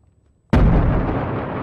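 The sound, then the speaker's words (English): A grenade explodes in a military shooter video game: one sudden loud blast, then a sustained roaring, rumbling wash of debris noise that stays loud to the end. “Oh, I just threw a fucking grenade! Holy shit! Oh, God. Why'd it take forever to blow?”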